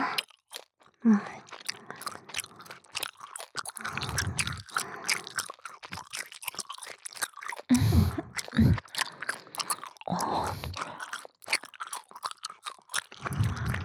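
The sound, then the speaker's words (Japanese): Gum being chewed with moist, smacking bites in a steady, irregular rhythm, many chews running through the whole stretch, some louder crunchy pops, with no talking. “結構おいしいわね、このガム。 でしょ、おいしいけどすぐに味がなくなるんだよね。”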